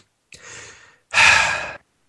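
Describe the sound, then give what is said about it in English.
A deep breath taken alone during a pause in sports talk: a soft, airy inhale, a brief gap, then a louder and fuller exhale. “Now, I'm going to take a deep breath for a second here.”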